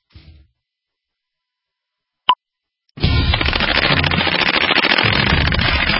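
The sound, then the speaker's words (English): Machine gun fire: a brief faint rustle and a single sharp pop come first, then a loud, dense stream of rapid shots starts and keeps going without a break to the end. “Love the sound of the machine guns. Sound of freedom.”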